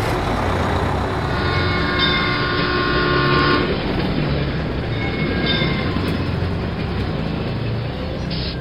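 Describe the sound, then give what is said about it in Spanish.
An express train races along the rails, a loud, unbroken roar of rolling wheels and rumbling carriages that fills the whole clip at a steady level, with no voices. “Rápido, rápido, viene un tren. Salga de los raíles.”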